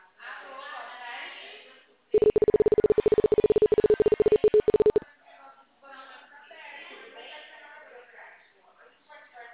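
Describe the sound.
A telephone rings as a steady mid-pitched electronic tone that pulses rapidly and lasts about three seconds, with quieter talk before and after it.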